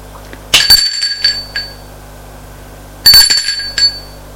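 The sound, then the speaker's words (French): A doorbell rings twice, each ring a short cluster of bright, metallic chiming strikes, with quiet stretches before, between and after. “Il sonne chez Mathieu.”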